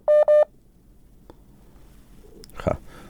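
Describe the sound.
Two short, loud telephone keypad tones sound in quick succession as a call fails to connect, followed by faint line noise and a soft muffled rustle.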